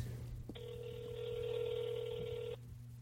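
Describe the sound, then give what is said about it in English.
A telephone ringback tone from an outgoing call: one steady, even-pitched ring lasting about two seconds, with a low hum beneath it. “Pick up. We're all counting. Almost went to voicemail, but I got it.”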